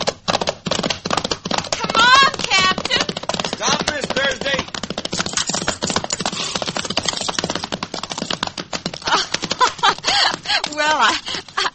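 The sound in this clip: Hooves of horses being ridden out across a mesa, making a rapid, steady clip-clop clatter throughout, with a voice talking over it.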